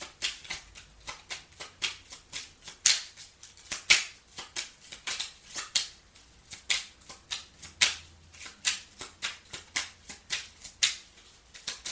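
Playing cards shuffled and drawn during a card reading, heard as many crisp, rapid papery snaps and riffles in an uneven rhythm, moderately quiet, with no talk over them.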